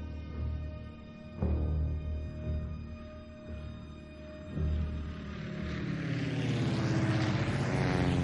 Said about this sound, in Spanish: El pasaje sube al avión. El aparato despega.